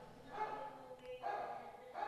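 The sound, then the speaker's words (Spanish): Faint yapping of a small, agitated dog: a few short, bright bark bursts spaced across the moment, low in level. “Uy, no, ese perrito sí. Hoy está alborotado.”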